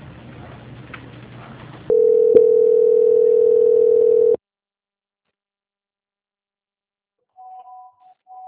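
A steady single-pitch telephone line tone plays for about two and a half seconds while a call is being transferred. It then cuts to silence, followed by faint, brief higher beeps near the end.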